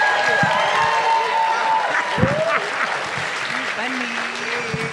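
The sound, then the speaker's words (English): Applause and cheering from a live comedy-show audience at a festival, loud and sustained: a dense clapping wash with whoops and shouting voices rising through it the whole way. “we should start clapping now for SNL's own Mr. Chris Redd!”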